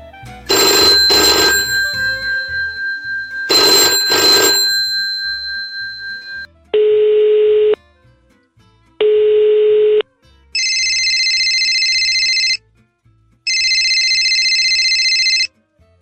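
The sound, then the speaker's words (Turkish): Telephones ringing in turn: two loud bursts of bell ringing, then two short electronic tones, then two longer, higher electronic trills, each separated by brief gaps. “duyduğunuz bu telefon sesleri siz Hayatın Sesleri dinleyicileri için neler ifade ediyor acaba?”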